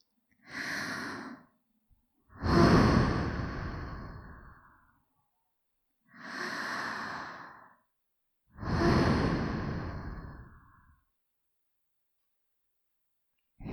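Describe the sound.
Deep breathing while inhaling apple-scented steam: four breathy sounds forming two slow cycles, each a shorter inhale followed by a longer, gradually fading exhale, with quiet gaps between.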